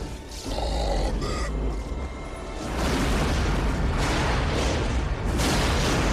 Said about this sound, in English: Exploded just like the Death Star.